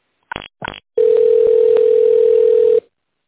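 Telephone tone while a business call is being transferred: two short buzzy bursts, then a long, steady, level tone lasting nearly two seconds, with no voices.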